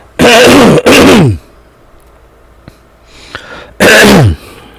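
A man coughing in three harsh, loud, voiced bursts. Two come close together, then there is a quiet gap with a few faint clicks, then a third burst. No one speaks.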